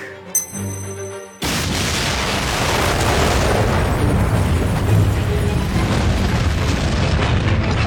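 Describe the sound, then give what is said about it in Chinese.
An explosion blows up the way back to a classroom in a school suspense drama. A sudden loud blast cuts in after a brief stretch of quiet tones, then a dense, roaring rumble continues steadily to the end. “然而男主直接将自己回教室的后路给炸了。”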